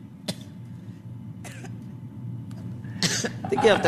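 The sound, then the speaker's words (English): A woman coughs: one sharp cough, then another, then a rougher, denser cluster at the end, each burst standing out over a quiet low hum. “I hear you coughing today. It happens to all of us.”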